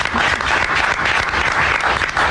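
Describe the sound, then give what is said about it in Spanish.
Sustained audience applause in a theatre for comedians: dense, even clapping from many hands, loud and steady throughout without a clear break. “Yo creo que merece un aplauso eso. Eso merece un aplauso.”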